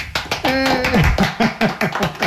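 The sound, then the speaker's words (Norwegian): A few people clapping hands to celebrate a friend finishing a knitted sweater, with steady, fairly loud claps in an even rhythm. “For litt applaus.”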